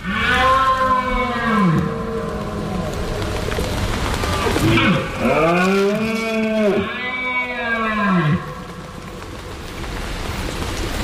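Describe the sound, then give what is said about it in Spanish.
Red deer stags bellowing on a hillside during the autumn rut. Several long, deep, harmonic roars arch up and then fall in pitch, loud and partly overlapping, with no voices. “habrá empezado a sonar en el monte el sonido de la berrea de los ciervos. Este es el sonido de septiembre hasta bien entrado octubre.”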